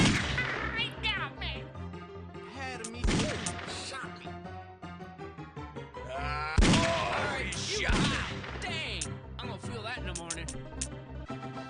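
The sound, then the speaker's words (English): Gunfire in a video game, heard as a few loud, sharp bursts within a dense, continuous mix of game sound effects and music-like tones. “Oh, he shot me.”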